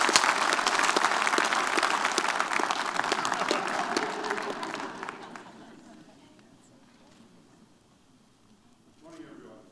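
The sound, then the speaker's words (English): Church audience applauding to welcome a visiting bishop from South Africa: dense, loud clapping for about five seconds that gradually dies away to near quiet. “Let's all put our hands together for a very warm Celebration Church. Welcome at all of our campuses.”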